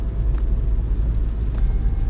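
Steady low rumble of a car driving on the road, with engine and tire noise holding fairly loud and even throughout, without talk.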